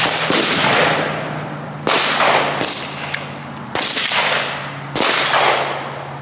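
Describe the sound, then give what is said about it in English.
Loud gunshots from a rifle, several sharp cracks spaced a second or so apart, each trailing off in a long decaying echo. “There's gonna be a shot. You shoot this and it goes boom.”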